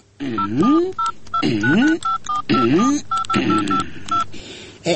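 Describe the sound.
Touch-tone telephone keypad dialing for a call: a long run of short electronic beeps in an uneven rhythm, with a voice sounding underneath the tones.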